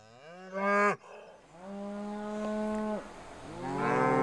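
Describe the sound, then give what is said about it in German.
A mother cow moos beside her calf in three loud, harmonic lowing calls. The first is short, the middle one is long and drawn out, and the last is cut off at the end. “Noch weicht das Kalb der Mutterkuh nicht von der Seite.”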